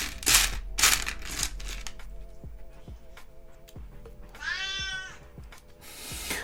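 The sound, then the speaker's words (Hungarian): After being petted, a cat walks away and lets out a single clear meow that falls in pitch, following crinkly rustling bursts and scattered soft clicks. “Annyira nem akarta a simogatásomat, hogy most nyávogva távozik a cica.”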